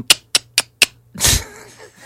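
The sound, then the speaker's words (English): Tongue clicks in the style of Xhosa click consonants: four sharp, evenly spaced pops, each crisp and brief, followed by a longer, noisier burst. “You know when you want your horse to move? Yeah. This is called a clicking language. Yeah, clicking language.”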